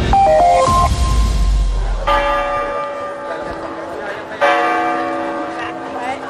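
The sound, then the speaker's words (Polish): The clock tower bell in Dubrovnik strikes three resonant, metallic times about two seconds apart. Each stroke rings on with a long, shimmering decay that overlaps the next. “Ten dzwon na wieży zegarowej w Dubrowniku, dopiero co byłem i widziałem, wybija już od prawie 5 lat unijny czas.”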